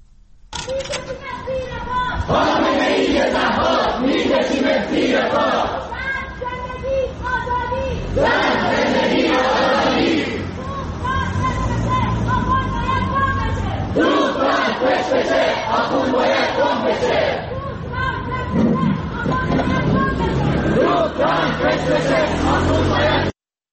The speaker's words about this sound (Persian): به صدای معترضان در سئول گوش بسپارید.